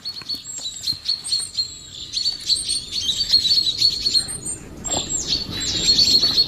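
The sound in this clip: Birds giving alarm calls, a warning system shared across species: many high, thin chirps and tweets overlap in a steady, busy chorus with no voices.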